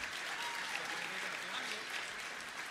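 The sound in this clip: Audience applause for a singer at an Icelandic performance contest: a dense, steady wash of many hands clapping together, with no separate claps standing out. It stays fairly quiet and even throughout, with no voices on top.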